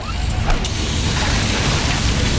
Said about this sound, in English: Oh, busted hose.